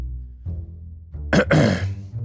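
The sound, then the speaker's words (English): A throat is cleared once in a rough, raspy burst made of two quick pushes, heard over a steady low hum with no talk. “when you hear just a clear of the throat behind you”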